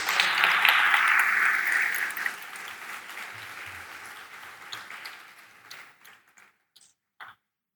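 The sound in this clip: Applause from an audience welcoming a speaker to the stage at an evening event: a dense, steady wash of clapping that slowly thins over several seconds, ending in a few scattered claps.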